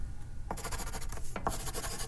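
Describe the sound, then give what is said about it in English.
Pen scribbling on a piece of paper, heard as two faint bursts of quick, scratchy strokes with a brief pause between them. “She scribbled on a piece of paper and handed it to Daniel.”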